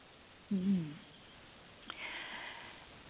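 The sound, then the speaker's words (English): Deep breathing during a guided relaxation exercise: a brief soft hum-like vocal sound, then a long, soft, drawn-in breath with a breathy hiss, over a thin, band-limited line. “And just take a few deep breaths. And I'm going to do it at the same time.”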